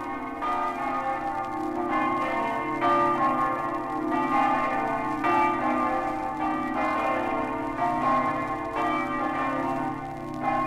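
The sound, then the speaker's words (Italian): A cathedral bell tolls festively from a slender 70-metre bell tower in Buia, Friuli, its many loud, steady strikes ringing out with rich, overlapping metallic tones that hum on continuously between blows. “Dallo snello e elegante campanile alto 70 metri, la campana del Duomo di Buia sgrana i suoi festosi rintocchi per salutare gli emigrati friulani.”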